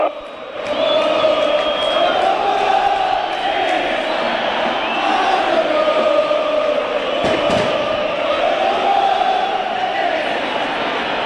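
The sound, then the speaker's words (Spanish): Football fans singing a chant together in the stands, a sustained melodic mass of voices holding steady, loud notes that rise and fall gently throughout, with brief crowd noise mixed in. “¿A qué se debe esta canción de los hinchas de Banfield?”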